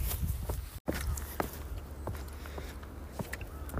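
Footsteps of a hiker walking at an unhurried pace along a rural nature trail toward a mountain: a few faint, evenly spaced soft steps over low background noise.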